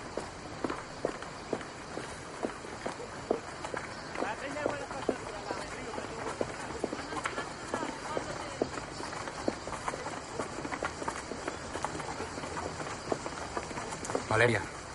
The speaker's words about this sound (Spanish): Luego ambos caminan por una calle del pueblo. Ella va un paso por delante de él.